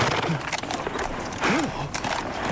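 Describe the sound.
A stallion's stamping and clopping hooves, mixed with a brief tonal call, heard among faint voices and a busy background.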